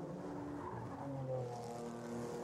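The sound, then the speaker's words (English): Michelin tyres chirp under ABS braking as GT4 race cars brake at turn one, giving a few brief, faint squeals over a steady engine drone. “Right on the edge of grip. Little chirrups from the Michelin tyres under the ABS braking of these GT4 cars in GSX.”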